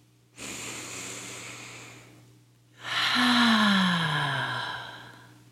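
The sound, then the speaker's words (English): A deep breath in, then a fuller, louder breath out, as a slow relaxation breath. Each breath is a long, airy rush over a faint steady hum, with a short pause between them. “I would like you to take a deep breath in and out.”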